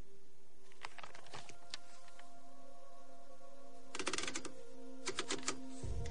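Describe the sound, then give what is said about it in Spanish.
A gleaming new typewriter with paper fed into the roller clacks as its keys are struck in a few short, sharp bursts separated by quiet pauses. “Abre el paquete y contempla una reluciente máquina de escribir. Se sienta frente a ella contemplándola pensativa. Se coloca sus gafas y mete un papel en el rodillo.”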